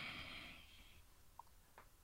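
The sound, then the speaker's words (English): A gentle breath in during a tapping exercise for calming stress and anxiety. A soft, airy hiss fades away over about a second, followed by near-quiet with a couple of faint clicks. “And just take a gentle breath in.”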